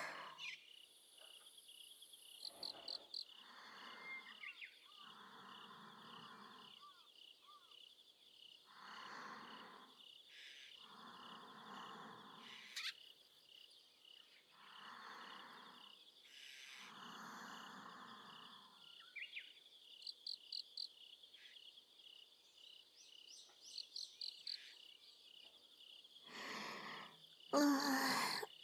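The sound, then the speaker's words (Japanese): Insects chirp in a steady high pulsing trill that carries throughout, joined by a series of lower, rounder repeated calls; the whole scene is faint and no one speaks. “でも虫の音が眠気を誘う。”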